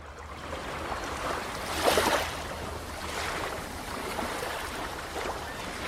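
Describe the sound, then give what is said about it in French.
Gentle water lapping at the surface of small waves, a soft and steady washing hiss that rises and falls in mild swells, faint and unbroken by voices. “Ce silence. Juste un petit clapotis au ras des flots.”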